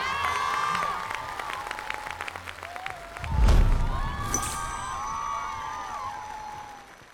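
Audience applause on a TV dance competition show as performers are sent back to the dancers' hall, a steady, dense patter of clapping that swells briefly midway and then holds until the end.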